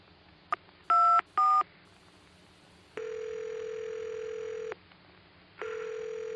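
A telephone number is keyed in: three touch-tone beeps, the first very short, then two long, steady electronic tones separated by a pause, with no voices.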